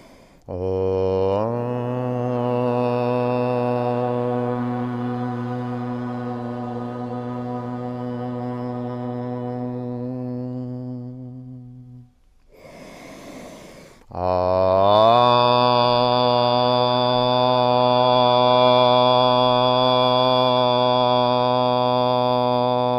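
Sustained Om chanting, performed with hands in prayer at the heart: two long, steady, deep droning tones rich in overtones, separated by a brief breath.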